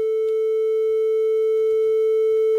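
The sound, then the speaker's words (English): Stacked sine waves driven until they begin to clip: a steady, loud, mid-pitched pure tone with a buzzy edge of added overtones, holding at a constant level without a break. “see, they're stacking, and it's actually starting to clip. So there's one sine wave.”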